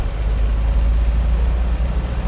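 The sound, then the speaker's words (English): A 1996 Geo Tracker with a mechanical fault drives along the Coal River, giving a loud, unbroken rumble of engine and road noise with a dense low hum throughout. “Colt Brogan drives me along the Coal River in a 1996 Geo Tracker. That rattling you hear? There's something wrong with his car, he mutters”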